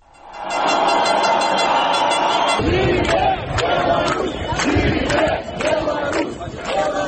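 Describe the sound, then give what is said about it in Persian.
A street protest crowd in Minsk, Belarus, builds into a loud, dense roar, then breaks into rhythmic group shouting with sharp repeated accents, many voices together throughout. “ابتدای گزارش صدای تظاهرات را می شنوید”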